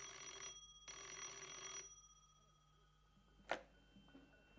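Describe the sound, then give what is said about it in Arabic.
A telephone bell rings in a kidnapping drama, sounding two bursts, a short one and then a longer one, followed after a pause by a single sharp click. “سيب التليفون، انا اللي هرد.”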